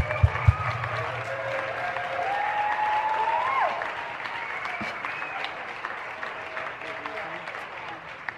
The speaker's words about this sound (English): Let's give the sound crew a huge hand